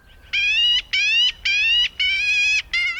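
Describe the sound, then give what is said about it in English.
A black-billed magpie gives five harsh, nasal calls in a steady series over open ground with bare March trees. Each call lasts under half a second and is separated by a short pause, above a faint low rumble. “The magpie's raspy call is bold as brass.”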